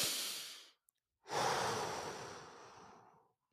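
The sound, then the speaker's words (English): Deep breaths taken alone: a short airy breath, a tiny click, then a longer, louder breathy exhalation that gradually fades out. “I take a deep breath.”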